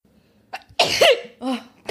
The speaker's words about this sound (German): Ich habe ganz instinktiv Entschuldigung gesagt, so wie es der Knigge verlangt. Man sagt ja nicht mehr der andere Gesundheit, sondern man muss, derjenige, der niest, sagt Entschuldigung.